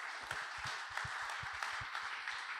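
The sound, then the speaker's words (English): Audience applause welcoming a new head of football at a football club members' forum: a dense, steady wash of many hands clapping, quiet and even throughout. “So can you please put your hands together and welcome Vito to the club.”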